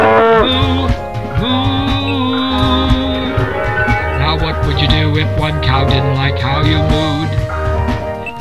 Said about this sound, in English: This is how normal cows sound when they moo.